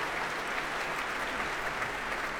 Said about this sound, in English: All that applause greets the arrival of the leader of the São Paulo Symphony Orchestra, Emanuele Baldini.